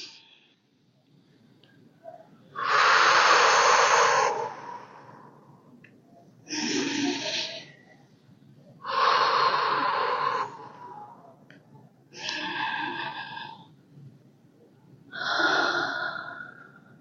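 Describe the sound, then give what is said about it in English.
An audience at a leather festival keynote takes deep breaths together, producing slow, breathy swells of inhaling and exhaling that rise and fall several times with quieter gaps between them. “Can I just ask everyone to join in taking three deep breaths?”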